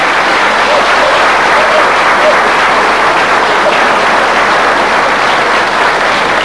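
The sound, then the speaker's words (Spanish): Audience applause at a lecture, honoring a priest, comes as loud, dense, steady clapping that holds evenly throughout without breaks or swells. “El aplauso para el padre Carreño, que es el padre de la idea.”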